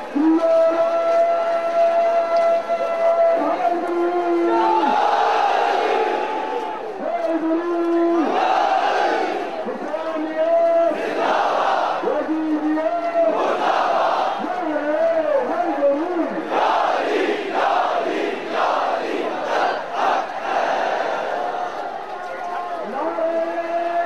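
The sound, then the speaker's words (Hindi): A crowd of more than 100,000 people shouts in answer to a slogan. The roar is loud and rhythmic, with repeated swelling bursts of massed voices that overlap continuously. “माशाल्लाह आप लोगों की तादाद 1,00,000 के ऊपर गई है और इतनी बड़ी तादाद के साथ ये आवाज हरगिज काबिले कबूल नहीं है। लिहाजा सब मिलकर इस नारे का जवाब देंगे।”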